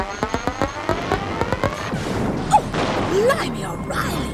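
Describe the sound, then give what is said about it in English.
Gunfire in a war zone: a rapid series of sharp, cracking shots opens the scene, followed by a rumbling, noisy stretch with voices underneath. “Yeah, we're in the middle of a war. A conventional shooting war. An old-fashioned tribal war. That was a bit too close.”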